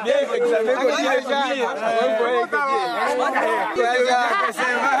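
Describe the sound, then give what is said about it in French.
Many students chatter together after leaving an exam at the Kaina 1 exam centre, a dense, continuous babble of overlapping voices with no single speaker standing out. “Vous entendez l'ambiance d'un groupe d'élèves sortis en examen au centre Kaina 1.”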